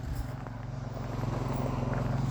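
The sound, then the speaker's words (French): A four-wheeled all-terrain quad drives past through quiet woods, making a low, throbbing motor drone that gradually grows louder across the short clip. “On va laisser passer le quatre roues”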